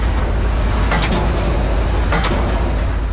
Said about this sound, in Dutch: bij Erik van Hoofd mag je de motor nog gewoon horen. Ramen open, volume omhoog en volle gas.